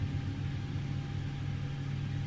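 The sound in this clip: Aircraft engine number one starting up after ignition is switched on, a steady low rumble and whir that holds an even level throughout, with no clear rise in pitch.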